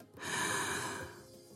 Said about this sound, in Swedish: Och ta ett djupt andetag. Andas in.